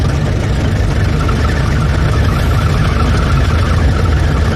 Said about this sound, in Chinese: 我开车呢。